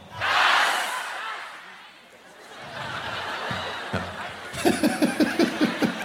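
A live audience shouts a single word loudly in unison, a brief collective roar at the start, then bursts of laughter and chuckling from the crowd.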